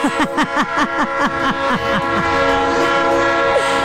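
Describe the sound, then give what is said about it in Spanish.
A train horn sounds from a train passing near Las Américas: a rapid run of many short, evenly spaced blasts, then a long steady held note, loud and with no talk over it. “Órale, pues si no es el tren que pasa ahí por las Américas, tú.”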